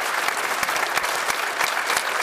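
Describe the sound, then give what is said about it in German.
Studio audience applause: dense, even clapping from many hands that runs steadily at a fairly loud level for the whole short stretch, with no voices over it. “dem wir jetzt noch einen Applaus ins kalte Dortmund rüber schicken.”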